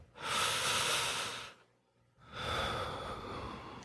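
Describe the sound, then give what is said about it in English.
A deep, slow breath: two long, airy, breathy rushes separated by a brief pause, soft and heard alone without speech. “so let's take a breath”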